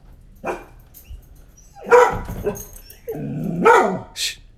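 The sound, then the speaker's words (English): A loud dog barking: a few harsh, forceful barks come in irregular bursts, fairly loud throughout. “Emily just brought Zoe in here, our dog, and she's a loud barker”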